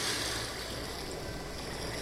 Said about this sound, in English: listen, you can hear the grating roar of pebbles which the waves draw back and fling